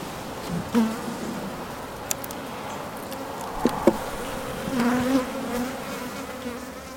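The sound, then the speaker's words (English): Honeybees buzz at an apiary: a quiet, steady insect hum, with a few louder buzzing passes swelling and fading as individual bees fly near. “Beekeeping, or apiculture, can be defined as the care and management of colonies of honeybees.”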